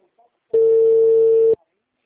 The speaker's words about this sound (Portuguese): Ah, o número. O número não tá dando. Tô ligando.